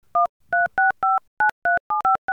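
Touch-tone keypad dialing on a telephone: a rapid series of short, clean two-tone beeps in an uneven rhythm, heard alone with no talking.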